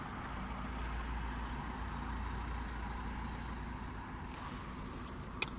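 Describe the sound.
Cars arriving at a fast-food drive-thru, heard as a faint, steady low rumble of engines idling and moving slowly, with no sharp individual events.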